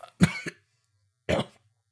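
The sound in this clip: Coughing and throat clearing from mucus: a few short, harsh bursts in two groups separated by a pause of about a second, heard alone.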